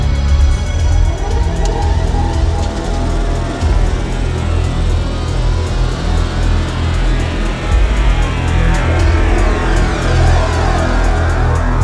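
A car accelerates on the road, giving a dense, loud and continuous engine and tyre roar that holds steady throughout.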